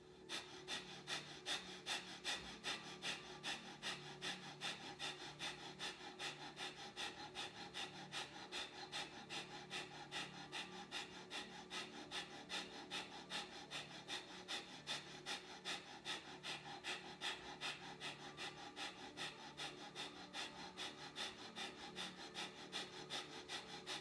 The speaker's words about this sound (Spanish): Vamos por nuestro segundo ciclo de bástrica. Este va a ser un poquito más largo. Y comenzamos.